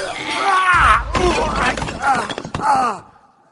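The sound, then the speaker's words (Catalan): A tree crashes down onto two men with a loud breaking crash and heavy low thuds, while voices groan and cry out over it; the noise trails off to quiet at the end. “Cuidado, que ens cau l'arbre a sobre.”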